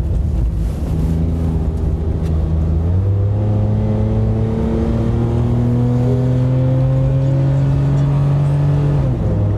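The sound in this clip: A car accelerates hard to merge onto an expressway, its loud engine drone climbing in pitch with a shift partway through, under steady wind rush and with no talk.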